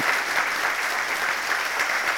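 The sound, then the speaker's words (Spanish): An audience in a church applauds with steady, dense clapping throughout and no voices. “May you please also clap hands for him. Y así que también pido que le demos un aplauso a mí.”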